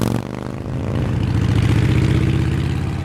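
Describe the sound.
Motorbike engine accelerating: a rough, low, throbbing drone swells in loudness after a brief cut and then holds a steady, loud roar.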